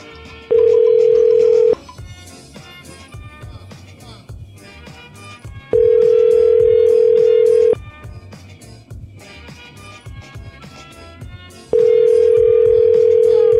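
Ringing tone of an outgoing telephone call that goes unanswered: three long, steady, evenly spaced tone bursts over a continuous background bed.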